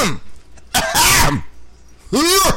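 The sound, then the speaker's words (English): Someone clears their throat in three harsh, rasping bursts separated by short pauses, each carrying a voiced, grunting tone. “You gotta clear out your throat like that?”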